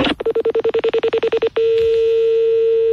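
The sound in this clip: Telephone keypad tones ring out as a number is dialled: a rapid, even run of many short beeps. A single steady, unbroken tone follows and holds to the end.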